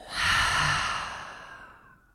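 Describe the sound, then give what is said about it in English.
A single long, deep breath let out as an audible sigh, breathy and airy, swelling quickly and then fading slowly to silence. “let's take a full breath in. And exhale it out.”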